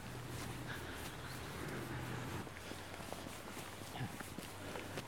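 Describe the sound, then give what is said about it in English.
Footsteps walking up toward the central green of a housing estate, faint irregular treads half buried in a constant wash of outdoor noise. “Now we're going to walk up to the central green space in the estate called Willow Green.”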